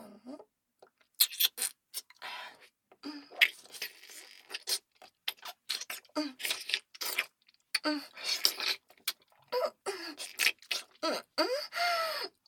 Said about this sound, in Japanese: おいしそう。いただきます